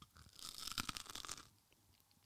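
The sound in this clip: Crunchy bite into a potato hash brown filled with red sauce, with crisp crackling crunches for about a second and a half, then a quieter stretch of soft chewing.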